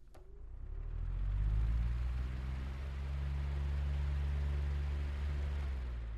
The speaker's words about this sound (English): the sound was horrible because you can hear the fan going in the background. Like, say I turn this on and have it right next to you. This is what it sounded like.